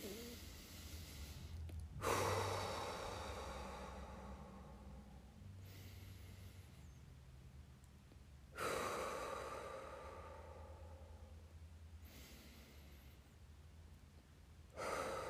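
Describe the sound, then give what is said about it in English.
Several slow, deep cleansing breaths are faint, airy rushes, each lasting a few seconds. Quieter gaps separate them, and the pattern repeats in an unhurried rhythm. “In the moment that the fear strikes, remind yourself to take a deep cleansing breath.”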